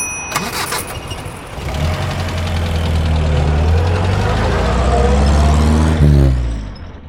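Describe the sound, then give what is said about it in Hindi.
A taxi's car engine starts and settles into a loud, steady low rumble, swelling briefly near the end before it drops away. “पहले मैंने taxi को रोका।”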